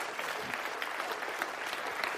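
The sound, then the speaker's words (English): An audience applauds during a church worship service: a steady, dense wash of many hands clapping at an even level, fairly soft throughout. “Just applaud the Lord again.”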